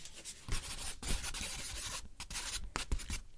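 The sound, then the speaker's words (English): Pen writing on paper notes: quiet, irregular scratching strokes with short pauses between bursts, heard alone without voices. “Okay, now I need to grab those notes back because eventually I need to write something for you.”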